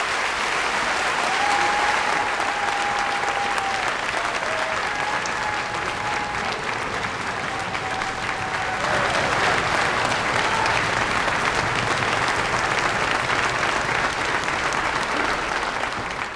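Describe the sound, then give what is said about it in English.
Standing ovation from a church audience: dense, loud applause that stays steady from start to finish. “Standing ovation for Scott. They never do that for me.”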